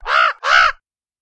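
A raven gives two harsh, loud caws in quick succession, each about a third of a second long, followed by silence.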